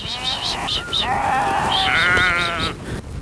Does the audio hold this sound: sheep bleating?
yes